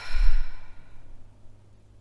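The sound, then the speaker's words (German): A single deep breath released through the mouth during a guided relaxation exercise, a loud, airy sigh-like exhale that fades out within about a second. “Und mal tief durch die Nase einatmen und durch den Mund aus.”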